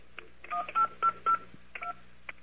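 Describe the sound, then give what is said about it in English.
Telephone keypad tones while dialing an airline, British Airways: a quick series of several short beeping tones, fairly quiet and unevenly spaced, over a faint steady hum. “So let me demonstrate how some voicemail systems can be very annoying. I'm going to call British Airways.”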